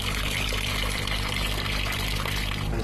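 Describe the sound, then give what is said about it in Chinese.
Boiled toon tree bark dye liquid pours into a vat for dyeing cotton thread, a steady, loud, continuous splashing rush of water with no pauses. “椿树皮的多少可根据染色的深浅来决定。把煮好的汤水倒入缸中，”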